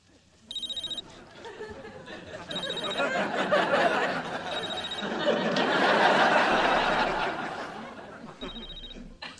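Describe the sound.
A telephone rings in a few short electronic bursts with gaps between them, over a bed of laughter and murmured chatter.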